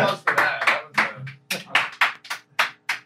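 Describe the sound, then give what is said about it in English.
Applause made of many sharp, separate hand claps at an uneven rhythm, each clap distinct rather than blended into a continuous roar. “Yeah, so applause”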